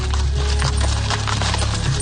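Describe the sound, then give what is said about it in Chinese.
Hooves clop and wood rattles as a horse-drawn carriage turns and drives off away from a church, many quick knocks sitting over a loud, steady low rumble. “马车在池田的指挥下转向与教堂相反的方向驶去。”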